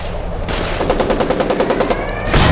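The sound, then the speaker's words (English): Rapid gunfire in a video game: a sustained burst of quick, loud, evenly spaced automatic shots, with a heavier blast closing it out. “Yeah, shoot him. Shoot him. Get out of the way. Okay. Just shoot him.”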